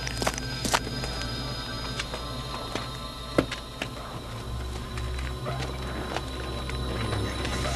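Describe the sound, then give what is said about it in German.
Somewhere a window shutter rattles: irregular dry knocks and clicks scattered across the stretch over a low, steady hum. “Hört ihr das? Irgendwo klappert ein Fensterladen.”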